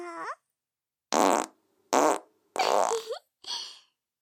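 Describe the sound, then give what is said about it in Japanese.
Five farts ring out one after another, each a loud, raspy burst of half a second or less, separated by short silences, with the last one fainter. “私のおならを食らったら何も喋れなくなっちゃいますから。”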